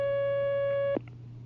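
A steady, tonal telephone line signal holds for about a second, then cuts off abruptly with a click as a caller is connected, leaving a low steady hum underneath.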